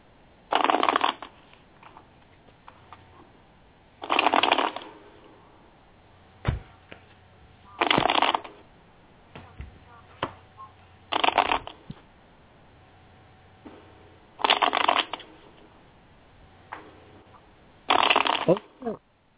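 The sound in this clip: Tarot cards are shuffled in six short, crisp riffling bursts at a steady pace, every three to four seconds, with quiet gaps and faint soft clicks in between.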